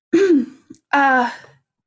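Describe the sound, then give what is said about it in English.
A woman clears her throat in two voiced bursts: a longer, rough, toned hem, a tiny click, then a second fuller, steady hem, with no other voices. “do a bit of, like, a blush, and then kind of clear her throat”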